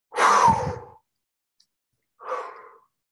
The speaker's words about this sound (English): you're going to take a deep breath and you're going to blow it into the room.